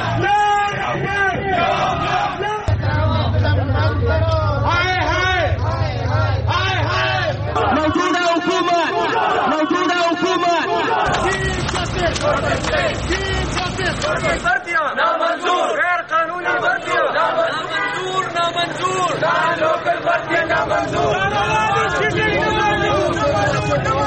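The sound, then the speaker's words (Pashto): Loud crowds at protests in Pakistan demanding their rights, with massed shouting and chanting that continues without pause and stays dense and steady throughout. “دا په پاکستان کې د مختلفو هغو مظاهرو غږ دی چې خلکو د خپلو حقونو د غوښتنو لپاره کړی دي.”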